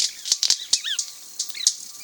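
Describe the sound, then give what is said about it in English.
Sharp firecracker-like wing snaps from male white-bearded manakins in a group display on a Trinidad forest floor: a scattered, irregular series of dry pops, some in quick pairs, mixed with short high chirping calls. “These firecracker-like pops are coming from the wing snaps of male white-bearded mannequins performing in a group display.”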